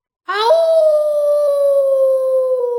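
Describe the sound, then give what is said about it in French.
A wolf lets out one long, loud howl. It climbs quickly at the start, then holds a steady tone for about two seconds and sinks slightly toward the end. No other sounds are heard. “il avait poussé à chaque fois un long hurlement de joie carnassière”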